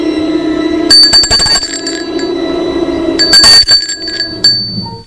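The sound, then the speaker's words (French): A doorbell rings at a house in a few loud bursts of rapid metallic rattling. Fainter ringing tones linger between the bursts, and no voices are heard. “Il sonne chez lui.”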